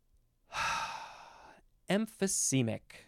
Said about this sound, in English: Oh, boy, it feels so good to take a big, deep breath.